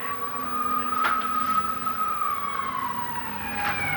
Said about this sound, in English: that's ambulance